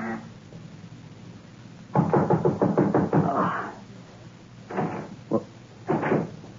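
An unlocked door is opened with a quick run of rattling knocks and clatters, then a few separate thumps and scrapes, fairly faint overall.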